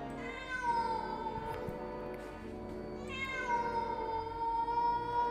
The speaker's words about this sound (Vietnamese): ở cái bụi cây phía sau vang lên những tiếng mèo kêu đến ghê rợn